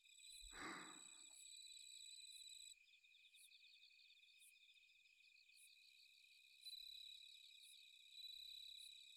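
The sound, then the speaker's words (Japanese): Bell crickets chirping outdoors in a steady, high, faint trill that runs throughout, with a brief low rumble near the start. “虫の音がよく聞こえる。”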